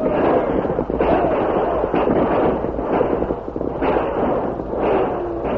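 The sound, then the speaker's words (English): Rapid gunfire from a western shootout between outlaws and a posse, a dense, steady crackle of many overlapping shots with heavier bursts roughly every second, loud and continuous throughout. “Use your guns, men. Give it to them.”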